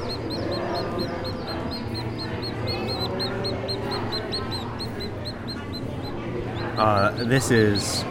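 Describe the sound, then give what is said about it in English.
Day-old chicks peep at a hatchery exhibit in a youth building: many rapid, high chirps repeat steadily over a busy background, with people talking, louder near the end. “Our next stop is the youth building, where not only can you watch eggs being hatched, but you can even hold day-old chicks.”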